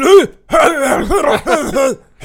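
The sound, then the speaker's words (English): A person imitates a cartoon character's cough with a few throaty, groaning vocal bursts, each bending up and down in pitch, separated by short pauses. “But his cough is like,”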